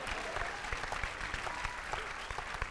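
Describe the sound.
Applause from a small group, a dense, irregular patter of many sharp claps at moderate loudness that carries on steadily without a clear peak or ending.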